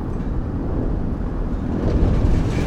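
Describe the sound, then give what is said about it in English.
An aircraft shudders with a deep, loud rumbling roar that stays steady and dense throughout, swelling slightly toward the end. “He leaves as the aircraft shudders.”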